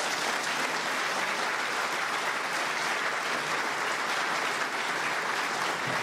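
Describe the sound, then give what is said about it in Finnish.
Sustained audience applause at a Finnish defence association event, thanking a naval commander after a talk on submarines; many hands clap in a steady, even roar throughout. “Lämpimät kiitokset ja aplodit vielä kerran.”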